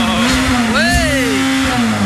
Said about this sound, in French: Doucement avec le moteur, s'il te plaît.